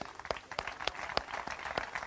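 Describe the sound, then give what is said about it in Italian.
An audience applauds to welcome a guest, a steady, dense patter of many hands clapping at even strength throughout, with no voices over it. “accogliamo con il nostro applauso il pubblico ministero Annalisa Imparato”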